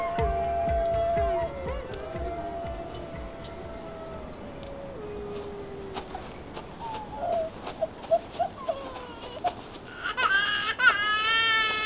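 Crying and sobbing in a dramatized scene from an audio drama, starting quieter, then turning into short broken sobs that come more often in the second half, ending in a higher, wailing cry.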